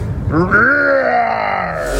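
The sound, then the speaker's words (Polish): A person roars in imitation of a lion: one sustained, strained vocal bellow lasting about two seconds. It climbs in pitch at first, then slowly sags lower. “Ale to ktoś tak ryczy względu na poniedziałek, czy z jakiegoś innego powodu?”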